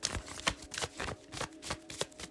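A deck of cards is shuffled before a card reading, with many quick papery riffles and flicks in a brisk, uneven rhythm, fairly faint and with no talk.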